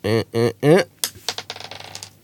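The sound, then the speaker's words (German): Dice rolled on a table during a board game, clattering as a quick run of sharp clicks that grow lighter and fade out. A short burst of voice comes before the rattle. “Wir sollten würfeln. Ja, genau. Soll ich immer mal würfeln einfach für die nächsten?”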